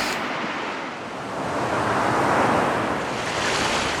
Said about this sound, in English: That's the surf washing away the map of France.